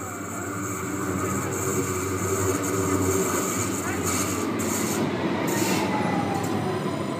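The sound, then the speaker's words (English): A Stuttgart subway train running: a loud, steady rumble of wheels on rails with high metallic squealing tones throughout, building slightly in the first second. “that was the sound of one of the Stuttgart subway trains.”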